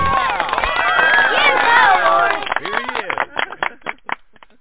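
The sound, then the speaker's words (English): A studio audience cheers and whoops to welcome a radio show host, many voices overlapping for about two and a half seconds before thinning into scattered claps that taper off. “Give a rockin' warm welcome to your host, Lawrence J. King.”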